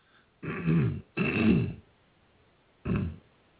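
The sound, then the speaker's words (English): Throat clearing from someone troubled by pollen season in Georgia: three rough, low guttural bursts, the first two nearly back to back and the third after a short pause, with no talking around them. “I apologize for the constant throat clearing.”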